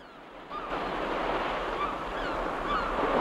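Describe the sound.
Ocean surf washes onto a beach as a broad, rushing wash of water. It swells up after a quieter first half-second and then holds a steady, full roar to the end.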